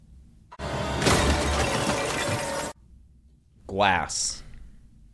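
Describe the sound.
Glass shattering from a film kill scene: a sudden loud crash into about two seconds of dense, crackling debris that cuts off abruptly, followed by a short burst of voice.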